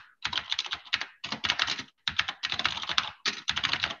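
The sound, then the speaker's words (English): Computer keyboard typing as a command is entered, with quick, dense keystrokes coming in several short bursts separated by brief pauses. “This is a command. I'm gonna type this, describe this CRD.”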